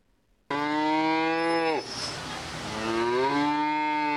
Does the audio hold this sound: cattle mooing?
yes